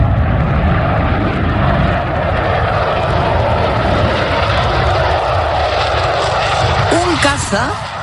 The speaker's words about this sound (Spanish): del Ejército del Aire Español, un Eurofighter, escolta el avión